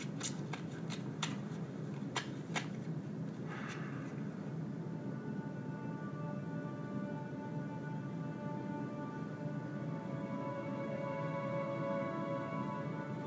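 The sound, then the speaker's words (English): Playing cards are shuffled and dealt for a game of five-card stud: a few sharp snapping flicks at the start, then a steady low hum with faint sustained tones and no talk. “Would you care to deal, sir? Oh, thank you, Mr. Data. Actually, I used to be quite a card player in my youth, you know.”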